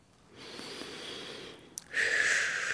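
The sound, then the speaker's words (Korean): Someone takes a slow, deep breath in and then lets it out. A soft, airy inhale comes first, then a short click, then a louder and rougher breathy exhale. “이렇게 긴 호흡 해보는 것도 좋은 것 같습니다.”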